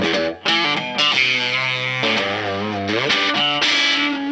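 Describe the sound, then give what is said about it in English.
Electric guitar, a Dean Z, played through a locally built distortion pedal: gritty, saturated notes and chords ring out loud in a steady run, with one note bending in pitch partway through. “that sound you're hearing, the dirt, oh yeah, is local. This pedal is built locally by Spun Loud Effects here in Seattle”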